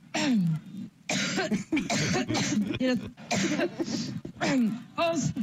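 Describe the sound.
Phlegmy, congested coughing from one person comes as many rough, wet bursts mixed with throat clearing, harsh and fairly loud, in a ragged series over about five seconds.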